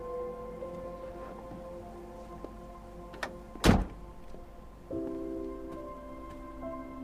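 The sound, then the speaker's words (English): A Jeep's car door opens with one sharp click and thunk over a steady tonal hum, followed by a louder shift in the background noise. “They walk to Graham's Jeep, and he opens the door for her.”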